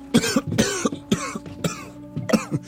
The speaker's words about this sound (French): Une toux, un brin caverneuse